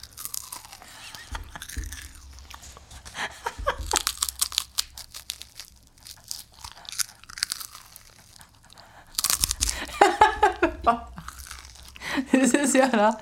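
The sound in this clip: Crunchy chewing of a rice cake for ASMR comes in close bursts of crisp crackling and biting, with quiet stretches in between while people talk softly.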